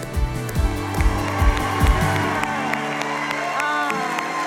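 A church audience applauds and cheers on a Sunday morning to welcome a new teacher to the stage: a steady wash of clapping and whoops, with a few low thumps early on.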